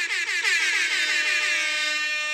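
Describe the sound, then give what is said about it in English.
An air horn blares from a small handheld buzzer: one loud, continuous, brassy tone with a bright buzzing edge that holds steady for the whole clip, with no talk over it. “I need the little buzzer with the air horn on it. Yeah. I'll insert that here.”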